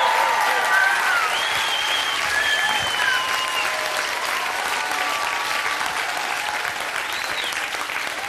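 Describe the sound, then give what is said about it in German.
A crowd of some 200,000 people applauds and cheers outdoors in the Park am Gleisdreieck, with dense, continuous clapping and shrill whistles cutting through. The noise eases slightly toward the end. “Das sind die 200.000 Leute, die hier stehen.”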